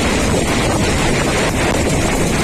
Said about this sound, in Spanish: Reventones como el que estaban escuchando en la zona de Espinardo en Murcia o en Mazarrón.